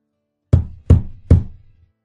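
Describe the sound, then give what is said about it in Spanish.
Three sharp, evenly spaced knocks on a door, each a loud hollow rap with a short ringing decay, sound alone against silence. “pica la puerta.”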